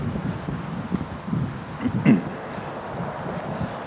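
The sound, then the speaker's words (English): Strong gusts of wind outdoors buffet the microphone in a low, rumbling roar that swells and eases in uneven surges, with no voices over it. “As soon as I stick you guys on pause, the wind drops. And literally as soon as I've got something to say. Flaming hurricane coming through again.”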